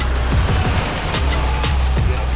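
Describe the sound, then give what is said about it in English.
A car drives along, producing loud, continuous engine and road noise with low rumbling throughout and no talk. “The Master's crew drives Veronica to the Four Seasons.”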